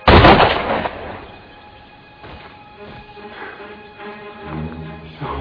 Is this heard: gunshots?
yes